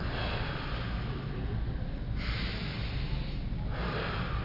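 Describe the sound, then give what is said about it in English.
Quick, forceful inhalations rush in during a guided breathing exercise, sniffing and snorting over a constant breathy hiss, with a few sharper intakes standing out. “Okay, faster. Breathe in faster. Follow me.”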